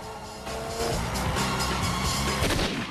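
Gunfire from a car during a street chase: loud, overlapping cracks and booms in a dense, continuous barrage, with no clear pauses between shots.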